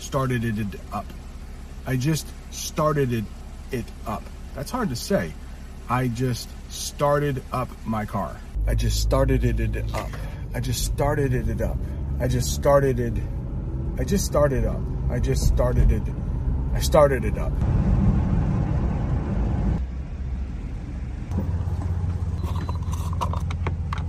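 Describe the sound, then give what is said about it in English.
A car engine starts and settles into a steady low idle that runs beneath a voice talking, after a stretch of speech alone. “Before we gas up the car, I needed to start it up. So I had to start up my car, and I just did. So I started it up,”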